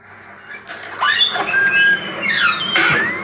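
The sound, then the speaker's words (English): An old 1980s kitchen oven door, about forty years old, opens and closes with a few high, whining squeaks and creaks. The squeals bend up and down in pitch between quieter moments, with no talk. “This is what it sounds like when I open and close the oven, okay? This is opening and closing.”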